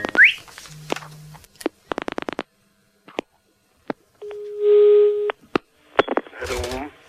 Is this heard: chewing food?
no